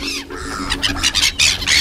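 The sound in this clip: Gulls squawk as they squabble over breadcrumbs. Many harsh, overlapping calls come in quick bursts, loud and continuous, with no talking.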